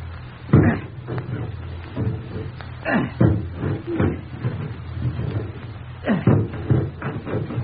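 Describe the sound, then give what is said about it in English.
An axe chopping through a locked wooden bedroom door: heavy, dull thuds of a big axe biting into wood, landing at irregular intervals, several blows in all, with splintering cracks between them. “Bring an axe, Mary. A big one.”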